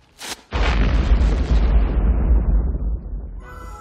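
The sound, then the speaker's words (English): A bomb hidden in a Christmas package explodes: a brief sharp burst, then a massive booming blast with a deep rumble that slowly fades over several seconds. “That was really a bomb?”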